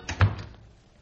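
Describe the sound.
A door closes as someone walks out: a couple of quick dull thumps, the second louder, then the sound fades away. No one talks.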